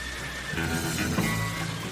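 A horse neighs in a short, rough whinny over a dense, noisy background, brief and fairly loud.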